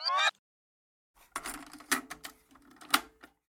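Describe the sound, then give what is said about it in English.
A cassette tape is slid into a boombox and its door snapped shut, heard as a brief tonal blip, then a pause, then a short run of plastic clicks and rattles ending in a sharper click. “I think it's a cassette tape. It's a cassette tape. Yeah. Being put into a boombox and then shutting it closed.”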